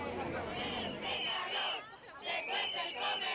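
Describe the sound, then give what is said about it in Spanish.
Faint crowd of parents and children protesting in Zaragoza over heat in a public school dining hall, many raised voices chanting and shouting together in surging waves. “Son padres e hijos protestando en Zaragoza por el calor que hace en el comedor del Colegio Público Parque Venecia.”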